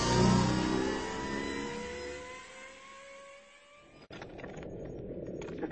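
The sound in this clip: A vehicle engine revs hard as the throttle is squeezed at night. Its droning, harmonic whine slides steadily lower in pitch for about four seconds, then gives way to a steady rushing noise.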